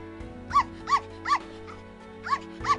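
A dog barks in short, high yips, about five of them, evenly spaced with a brief gap in the middle, over a steady low hum.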